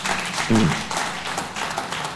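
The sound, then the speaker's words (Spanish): Church audience applauding during a Spanish-language service: a brief burst of many hands clapping together, with a short voice briefly rising above the clapping early on. “Denle un aplauso al Señor por la gente del tsunami”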